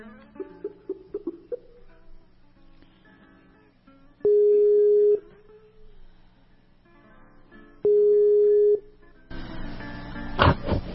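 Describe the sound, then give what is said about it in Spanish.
A Skype call rings out with two long, steady ringback tones separated by a pause. A few short blips come before them, and a burst of noisy line sound follows as the call connects. “Así que ya mismo procedo a llamar a Marina por Skype, que por esa vía ella desde su casa participa del programa, y yo desde aquí. Así que estoy llamando a Marina.”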